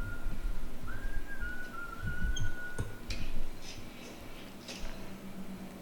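A person whistles one steady tone that slides up and then holds for under two seconds, faint against a noisy background.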